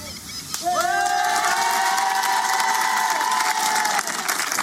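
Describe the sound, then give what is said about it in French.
Studio audience cheering and applauding in a large public studio: a loud, steady wash of crowd noise that holds throughout, with a sustained high tone gliding in and running beneath it. “Applaudissements pour le troisième live.”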